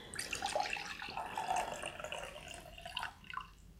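Beer being poured from a jug into a cup, a steady splashing, gurgling stream of liquid that runs for several seconds and ends with a short burble.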